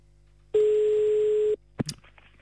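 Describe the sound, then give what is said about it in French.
A telephone call rings out as a single steady mid-pitched tone lasting about a second, followed by a brief clatter and faint noise, with no voices. “Bon, donc du coup, on fait le premier appel, on va à Mézancy.”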